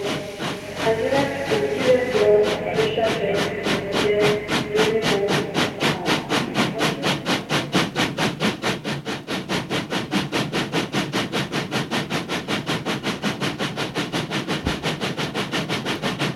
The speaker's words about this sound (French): Le train commence à rouler. Et sort petit à petit de la gare.